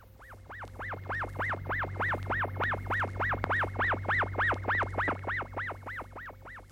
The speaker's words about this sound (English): Here are a few samples of it. We've given these noises names. Here, for example, is the one we've called wobbler.